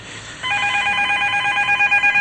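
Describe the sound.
A telephone rings with a bright electronic trill that starts abruptly and sustains steadily, then breaks into quick pulses near the end. No one speaks over it.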